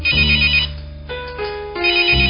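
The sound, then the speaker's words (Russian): A home telephone that usually stays silent rings with a bright electronic trill in repeated bursts: a loud ring, a softer pause, then another ring at the end. “Как-то днем вдруг затренькал обычно молчащий телефон.”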